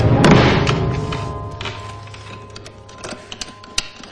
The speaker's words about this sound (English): With a determined look, she rushes to the piano and closes the lid, locking it shut.